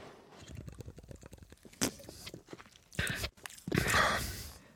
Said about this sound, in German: Ja, greifen wir nochmal zur Mate, weil ich habe es ja versprochen. Ich trinke nochmal einen Schluck Mate.